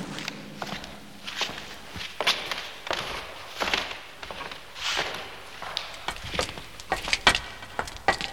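Footsteps of people walking into a dark building: many irregular thuds and scuffs, some louder than others, over a faint background hiss.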